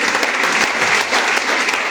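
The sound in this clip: Applause from a church audience of brothers and sisters, a loud, dense, continuous clatter of many hands that runs steadily throughout.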